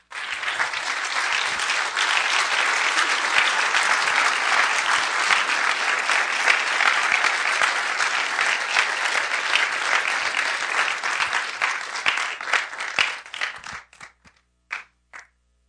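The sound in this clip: A church audience applauds to welcome a speaker with a sustained, dense wash of clapping for most of the stretch. It thins toward the end into a few scattered final claps and then silence.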